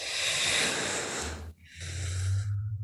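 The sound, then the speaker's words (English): A deep breath drawn in during a guided breathing and muscle-tensing exercise: a long, noisy rush of air, a brief pause, then a second, shorter airy intake over a low steady hum. “A big breath in, and then we're going to take a big exhale out. All right, get ready. Breathe in.”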